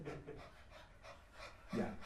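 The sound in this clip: A person imitates a dog panting, the quick breathy huffs a dog makes when it is too hot or has been running. A faint, rapid series of short breaths repeats steadily, with no other sound.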